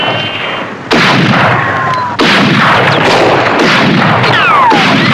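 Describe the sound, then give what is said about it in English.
Rifle shots fired down from a ridge at a posse in a Western: a few loud, sharp cracks with echoing tails, some followed by whining ricochets that drop in pitch, over a continuous rumbling background. “Suddenly, from a ridge above the posse, a rifleman begins to shoot at them.”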